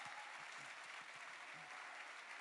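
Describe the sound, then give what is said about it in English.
Congregation clapping hands for the Lord during a church service: a dense, steady wash of many hands clapping, held at a faint, even level throughout. “Come on, let's give the Lord a hand clap. Come on.”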